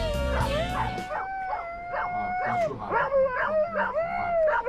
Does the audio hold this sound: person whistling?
no

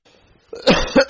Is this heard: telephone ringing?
no

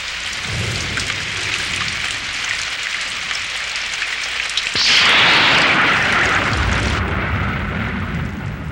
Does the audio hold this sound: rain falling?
yes

